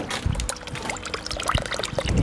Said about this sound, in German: Es plätschert hinterm Haus bei Michael und Gabi Keller in St. Wendel.